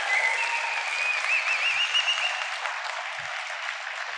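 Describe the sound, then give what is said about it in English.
Applause from an audience for a speaker being honored: a steady, sustained wash of hand clapping, fairly loud and even throughout, with no speech over it. “Can we just give a round of applause for Austin?”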